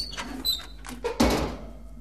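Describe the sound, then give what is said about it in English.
A cook wearing oven gloves opens an oven door in a kitchen. A brief high squeak comes first, then a loud clunk with a rushing, noisy tail that slowly fades. “In the kitchen, using oven gloves, the cook opens the oven door and removes a piping hot pie”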